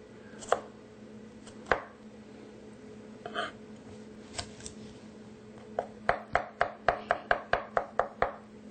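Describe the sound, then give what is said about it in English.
A knife chops garlic on a board: a few scattered, sharp chops at first, then a quick, even run of many crisp knocks toward the end. “Easiest way of the garlic is just to chop it a little bit. That's what we're doing here.”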